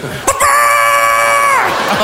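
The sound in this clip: A chicken sound mixed with a man's voice forms a rooster-like crow: a short burst, then one loud, nasal, sustained call holding a level pitch for over a second before fading out.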